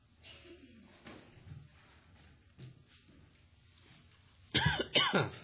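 Coughing from a preacher during a church sermon after something went down the wrong pipe: quiet throat noises, then a couple of loud, harsh coughs near the end.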